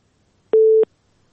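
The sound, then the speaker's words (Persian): One short busy-tone beep sounds after a call-in listener from Helmand is disconnected. It is a steady mid-pitched tone set against near silence. “شنونده ما از هلمند تماسشان قطع شد.”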